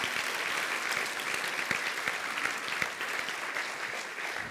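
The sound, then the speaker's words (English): Applause for students from an audience, dense steady clapping that holds at an even level from start to finish, with no voices above it. “So make some noise for these students for their commitment that they've made.”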